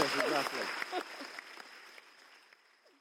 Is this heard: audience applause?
yes

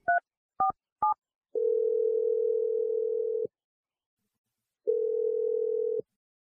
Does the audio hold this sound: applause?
no

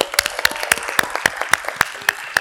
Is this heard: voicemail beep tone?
no

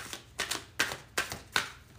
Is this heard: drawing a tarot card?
yes

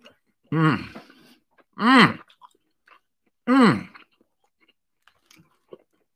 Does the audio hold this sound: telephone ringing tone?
no

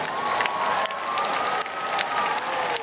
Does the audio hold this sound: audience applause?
yes

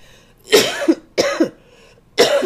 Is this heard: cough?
yes

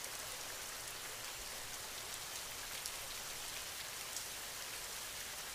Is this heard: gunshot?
no

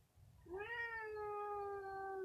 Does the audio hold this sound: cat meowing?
yes

